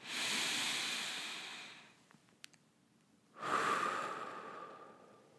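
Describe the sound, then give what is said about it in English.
One person takes a deep breath: a long, airy inhale that slowly fades, a short quiet pause, then a breathy exhale. Both sounds are soft. “would you take a moment right now and take a deep breath?”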